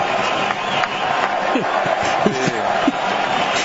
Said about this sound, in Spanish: El público empuja en la tribuna.